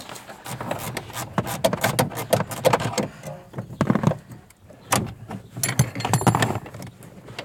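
A wrench loosens a nut on a car's suspension link, producing dense metallic ticking and ratcheting clicks in uneven bursts that swell and fade, with a short lull near the middle.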